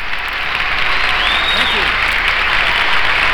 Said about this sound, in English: So let's give them a great big welcome, the Osborne Brothers.